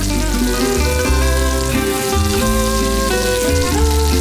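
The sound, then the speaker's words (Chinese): Local tiao chili powder, about two jin, sizzles loudly in hot oil while being stirred continuously. The dense, crackling hiss holds steady and unbroken from start to finish. “倒入本地2斤条辣椒面，持续搅拌，释放辣味因子。”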